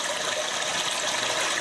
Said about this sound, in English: The solution? A device that mimics the sound of an ever-flushing toilet.